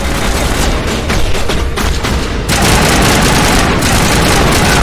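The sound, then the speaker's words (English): Rapid, dense gunfire rings out in a video game shootout where a bartender, a thug and a bouncer are shot. Overlapping shots crackle loudly and continuously throughout, with no voices. “Bartender gets shot. Thug gets shot. Bouncer. Oh my gosh.”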